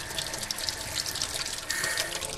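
Tap water runs steadily inside a vacant house, a continuous broad hissing rush with slight surges and no voices.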